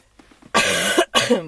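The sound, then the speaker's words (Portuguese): A person coughs twice in quick succession, with a short gap between the coughs. The coughs are loud, harsh and breathy, and a few faint breaths come just before them. “Perdão que hoje estou com tosse.”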